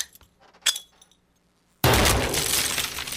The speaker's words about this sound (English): I'm going to back up right now to throw this audio grenade.